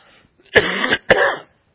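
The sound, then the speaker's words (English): Two harsh coughs from a person at an evening group gathering, each a short, loud, raspy burst, the second a bit shorter, with quiet between and no talk. “I'm not alone in my coughing. We've almost had harmonious coughing this evening”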